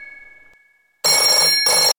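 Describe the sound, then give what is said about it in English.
A telephone rings loudly in two electric bursts, a longer one followed by a shorter one, after a faint steady tone fades out into silence. “can you get the phone? It just keeps ringing.”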